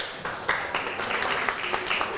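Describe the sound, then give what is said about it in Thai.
A class applauds itself after a lesson. Following a short quiet moment, fairly soft, steady clapping from many hands carries on for about two seconds. “ปรบมือให้ตัวเองครับ”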